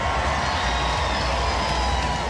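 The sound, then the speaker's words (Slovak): A festival audience at Coachella roars in a dense, steady wash of crowd noise and cheering that continues without a break. “Aj burácajúce publikum.”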